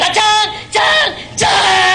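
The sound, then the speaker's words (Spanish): A man lets out a loud yell as a war cry, three forceful, drawn-out shouts in a row, each one strong and ringing, separated by brief pauses. “Y con este grito de guerra que tenía una explicación detrás.”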